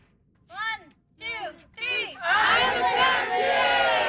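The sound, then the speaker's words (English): Shouts from kids playing soccer on Penelakut Island, off Vancouver Island: three short, high shouted calls, then a loud, sustained burst of overlapping yelling and cheering. “So that's the sound of soccer players on Penelakut Island, just off Vancouver Island.”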